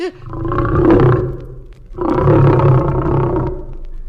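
A lion roars twice, each a long, deep, rumbling roar of about two seconds with a rough, throaty grain. The second roar runs to the very end.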